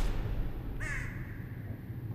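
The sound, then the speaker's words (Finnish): A single harsh crow-like caw rings out over a steady background hiss as a bird spreads its wings and flies off, followed by continuing low rushing noise. “Lintu levittää siipensä, ponnahtaa ylös paneelilta ja lentää pois.”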